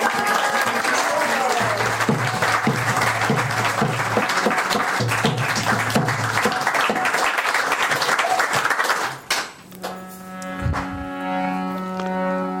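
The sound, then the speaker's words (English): Audience applause welcomes a person being introduced at a gathering: dense, continuous clapping for roughly nine seconds, then it breaks off abruptly and sustained tones follow. “Maybe give a hand to...”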